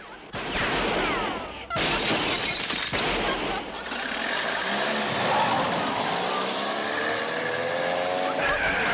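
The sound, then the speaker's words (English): A gunshot shatters a bank window, with a few sharp cracks and a burst of breaking glass amid a loud, continuous roar of car engine and tire noise. “shoots the bank window.”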